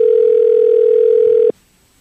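Ringback tone of an outgoing telephone call to a shop: a single steady, mid-pitched electronic tone holds for about one and a half seconds, then cuts off abruptly into near silence.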